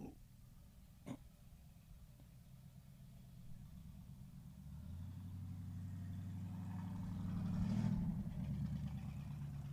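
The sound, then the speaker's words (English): A car engine revving outside: a low idling rumble that builds in loudness and pitch as the revs climb, peaking near the end, with faint talk in the background. “Man, that guy's revving. He's about to do donuts, I think. Yeah. I think he's about to do donuts.”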